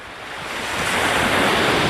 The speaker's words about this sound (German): Die Wellen von Quiberon in der Bretagne.